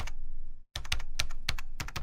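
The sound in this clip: A password is typed on a computer keyboard: sharp, crisp keystrokes in a rapid, uneven run, after a stretch of continuous noise and a brief silent gap.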